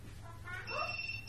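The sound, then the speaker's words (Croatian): An incoming call sets a telephone ringing, a faint, brief electronic ring of layered bright tones that swell midway and hold to the end. “evo nam jednog telefona za Bosnu”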